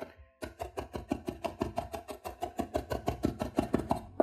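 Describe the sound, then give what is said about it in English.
A kitchen knife mincing seven cloves of garlic on a cutting board: many quick, even chops in a fast, steady rhythm, each a crisp tap that continues without a break. “So slice it kind of as thinly as you can, but again, don't go crazy. You don't really have to because what you're going to do is pile it right back up. Scrape it all back together. Run it through with your knife again.”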